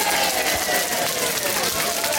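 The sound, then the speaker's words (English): Canned studio-audience cheering is played from a soundboard, a continuous, dense wash of crowd noise at a steady moderate level for the whole short clip, with no clear peaks or breaks. “Where's that studio audience, Grant? Here they are.”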